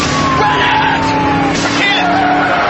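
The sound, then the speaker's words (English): A tow truck brakes hard on a bridge, its tires skidding with a loud, sustained scraping hiss and a thin squealing tone that slowly slides downward over the heavy road noise. “The tow truck stops on the bridge and the squad cars block their exit.”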